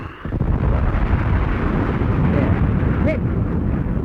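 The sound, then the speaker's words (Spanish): A laboratory exploding in a video game: a loud roaring rumble bursts in abruptly and then holds steady as a dense, continuous blast of low, crackling noise to the end. “El laboratorio número 2 ha explotado también.”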